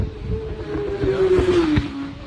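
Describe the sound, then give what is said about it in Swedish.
An orange motorcycle passes during a race with a steady engine drone. Its tone dips slightly as it goes by. “Helt orange motorcykel.”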